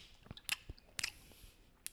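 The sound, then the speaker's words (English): A person imitates people smacking their teeth while chewing, producing several quiet, wet, clicky smacks in an irregular rhythm, with brief pauses between them. “It's the sound of them smacking their teeth, but me doing it. So now I'm them.”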